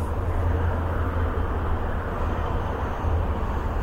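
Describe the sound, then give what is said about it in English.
An approaching train, heard as a continuous low rumbling roar with broad noise above it, holding steady in loudness throughout. “And here comes the train.”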